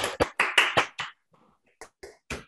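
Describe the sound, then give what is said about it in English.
A handful of uneven claps as an online audience unmutes to applaud after a talk. A quick cluster of claps is followed by a brief lull, then a few more scattered claps. “So let's all unmute to give him a round of applause for his great talk.”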